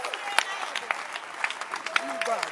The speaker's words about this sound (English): Clap your hands again.